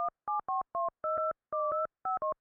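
A telephone number being dialed to call parents: a quick run of short, clean keypad tones of changing pitch, some in close pairs, with brief silent gaps between them.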